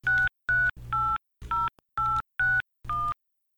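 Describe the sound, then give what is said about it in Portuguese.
Touch-tone telephone dialing, as a phone number is keyed in: seven short, evenly spaced electronic beeps with brief gaps between them, heard alone without voices. “tem que ligar pro Paulão”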